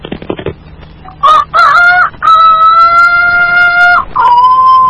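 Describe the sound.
A man's voice imitates a rooster crowing: a few short sounds, then loud, wavering, high crowing calls in several drawn-out phrases, the longest held for nearly two seconds.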